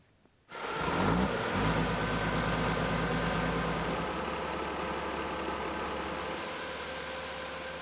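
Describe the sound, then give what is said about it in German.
A four-ton snow groomer from the Alps, parked in a nature park, has its engine kick in after a short quiet moment. It becomes a loud, steady, low drone with a faint high whine that fades after a few seconds, then settles into an even idle. “Diese Skipistenraupe aus den Alpen hat es bis in den Naturpark Nossentiner Schwinzer Heide geschafft.”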